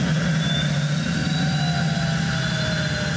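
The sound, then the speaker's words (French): Turbine engine of an unusual car whining as it accelerates: a loud continuous roar with several steady high tonal whines layered over a dense low rumble, with no talking. “quand j'accélère, j'entends la turbine qui se met en route.”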